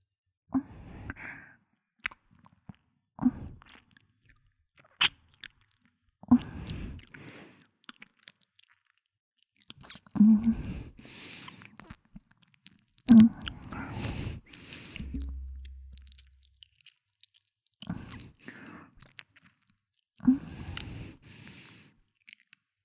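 Soft, wet chewing and mouth sounds of someone eating lotus seed soup sweetened with rock sugar, fed mouth to mouth, come in many short, intermittent bursts with breathy sighs between them.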